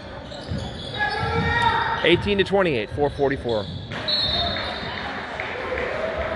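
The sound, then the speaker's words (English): A basketball bounces on a court in a series of dribbles, with voices talking partway through and a brief high squeak near the end. “Number one's bouncing the ball, looking to drive in.”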